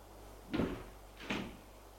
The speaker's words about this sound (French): Mais la serrure était cassée. Il peut ouvrir la porte